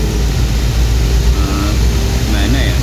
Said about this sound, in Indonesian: Ada motor lagi nih, lajur kiri.